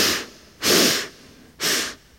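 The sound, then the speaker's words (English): Deep breathing during a guided breathwork exercise: two loud, airy breaths with a rushing, hissy texture, each lasting about a third of a second and separated by a short pause, with no talking. “And exhale. And then inhale, exhale, deep cleansing breath.”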